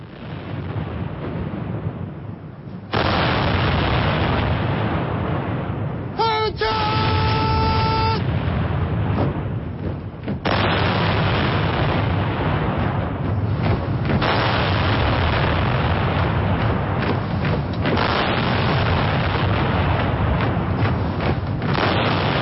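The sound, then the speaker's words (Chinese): A ceremonial artillery gun salute fires at a national flag-raising ceremony on Tiananmen Square in Beijing. Heavy, deep booms begin after a quieter opening and merge into a loud, continuous rumbling roar that lasts to the end. “请全体起立，鸣礼炮。”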